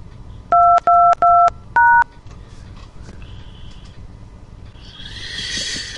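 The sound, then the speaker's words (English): Telephone keypad dialing tones sound as four short, loud dual-tone beeps in quick succession, the first three at the same pitch and the fourth at a different pitch, followed by a faint background hiss. “Please dial an extension now or dial zero for assistance.”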